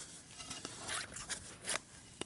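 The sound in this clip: Dry rasping strokes of a blade shaving splinters off narrow strips of wood split along the growth ring, a few short scraping bursts, fairly faint, with no talk.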